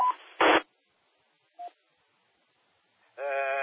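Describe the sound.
Interference on an amateur radio net produces short, noisy bursts and a brief tonal blip separated by silence, then a steady, buzzy, harmonic-rich tone at the end.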